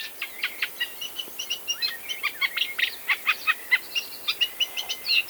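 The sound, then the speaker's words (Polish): Eurasian reed warbler song in a field recording: a somewhat irregular, hesitant string of many rapid, high chattering and chirping notes, repeated at a fairly steady pace, with no voices. “Trzcinniczek, którego śpiew jest bardziej troszkę taki niepoukładany, nieśmiały. Akurat w czwartek w tym tygodniu udało mi się go nagrać.”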